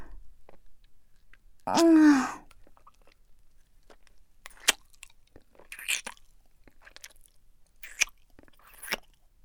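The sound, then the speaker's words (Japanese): Japanese rice crackers (senbei) are bitten and chewed, giving a few faint, sharp, isolated crunches spaced well apart. A brief voiced murmur comes early, before the crunches. “私のおすすめは、このせんべいかな。なんか、お店で食べるのよりも全然美味しいんだけど。”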